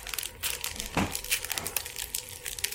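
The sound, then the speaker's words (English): Crinkling plastic wrapper as a chocolate frog packet with a collectible card inside is torn open, a continuous bright rustle with sharper crackling bursts, heard alone without voices. “It's plastic. Why is it plastic inside of plastic? Because they gotta protect the card.”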